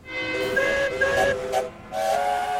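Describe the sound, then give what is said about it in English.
Steam engines whistle together in several overlapping, steady, high, clear tones that keep sounding with little pause, with brief bursts of hissing steam mixed in. “All the engines whistled cheerfully.”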